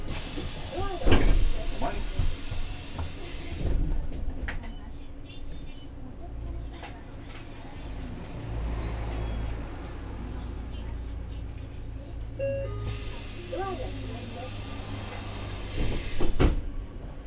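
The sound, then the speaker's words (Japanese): Doors of a passenger vehicle in Japan closing with a hissing rush of air and a few knocks, then a low, steady engine rumble as it departs, with another burst of hiss and clatter near the end. “発車します。お捕まりください。”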